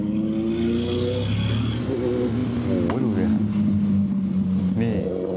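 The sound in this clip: A big motorcycle speeds away while fleeing near the Lat Phrao–Chatuchak intersection, its engine a steady droning roar with shifting harmonic tones that swell briefly near the middle. People talk over it throughout.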